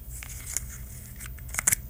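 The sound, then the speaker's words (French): A bottle cap with an aluminium seal is opened: faint crinkling and light scraping, ending in a few brief, sharp clicks and snaps near the finish, with no talk. “C'est pas un si grand bruit que ça, c'est ben, juste un bouchon.”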